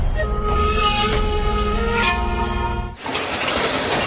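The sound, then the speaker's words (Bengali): Passenger train travelling from Dhaka's Kamalapur toward Sreemangal, a loud steady rumble carrying droning mechanical tones, shifting near the end into a broader, rougher rushing noise. “ঢাকার কমলাপুর থেকে ট্রেনে করে আমরা রওনা দেই শ্রীমঙ্গলের উদ্দেশ্যে।”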